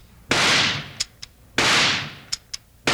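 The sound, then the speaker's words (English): Rifle shots in a radio drama, fired across a lake at men in a canoe: three loud, sharp cracks, each with a long fading tail, separated by short clicks. “Give me that rifle. Here it is. You can't miss it that distance, Bart. I'll say I can't.”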